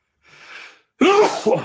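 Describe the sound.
A single loud sneeze, preceded by a faint breathy intake and a short silence, ending in a voiced, gasping tail.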